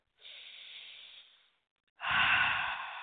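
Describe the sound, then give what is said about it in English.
Slow breathing in and out during a guided meditation: a long, soft, airy breath, then after a brief silence a louder, fuller breath with a deeper rushing tone, with no talk. “Let's just take a moment. Breathe in, breathe out.”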